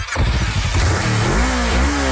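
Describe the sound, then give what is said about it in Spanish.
A Boxer 150 motorcycle engine revs loudly and continuously, its note climbing and wavering as the throttle is worked, with no voices over it. “¿Escuchas eso? Es la nueva Boxer 150. No le teme al polvo ni a la carga pesada. Con su nuevo motor más fuerte”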